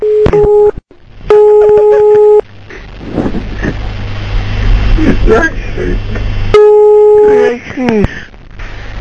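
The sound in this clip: Telephone dialing tones sound during a prank phone call. Several loud, steady electronic tone bursts come at the start and again near the end, with voices talking over a noisy line between them.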